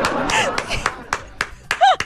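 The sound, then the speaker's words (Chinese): A person claps their hands a few times, the sharp claps scattered between talking voices and brief laughter. “你看， 真好， 你看， 手动给你鼓掌。”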